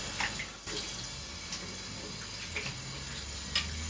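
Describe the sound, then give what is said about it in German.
Tap water runs into a bathroom sink as shaving residue is rinsed away, a faint steady hiss with a few soft splashes and knocks scattered through it. “Und dann spüle ich jetzt den ganzen Mist auch nochmal runter. Genau, abspülen, abtrocknen”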